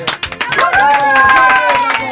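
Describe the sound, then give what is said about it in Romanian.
An audience claps to encourage a contestant on a Romanian-language show. Quick, sharp claps open the passage, then a loud, held, pitched voice rings out over the continuing clapping. “Cine este primul care sparge gheața? George, haide să-l încurajăm cu aplauze!”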